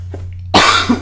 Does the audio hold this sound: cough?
yes

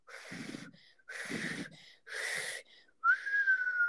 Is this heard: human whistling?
yes

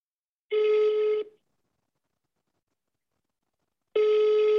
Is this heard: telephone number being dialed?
yes

